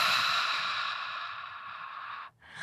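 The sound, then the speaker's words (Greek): A slow exhale through the mouth during a guided meditation: a soft, steady breathy rush that holds for about two seconds, then cuts off into a brief quiet before a new breath begins. “Άλλη μια φορά εισπνοή από τη μύτη. Εκπνοή από το στόμα.”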